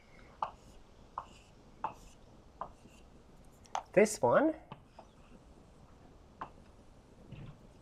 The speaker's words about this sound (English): So I'm not going to write every single possibility down. I'll write down enough so that you guys can see the pattern.